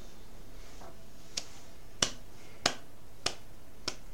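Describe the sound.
Sarcastic slow clapping: five sharp, evenly spaced claps at a deliberate pace, fairly faint and isolated, with quiet in between.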